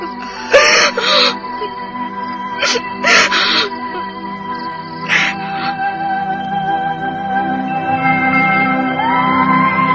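A young woman sobbing bitterly gives a few sharp wailing, whimpering bursts, then quieter broken cries over sustained background tones.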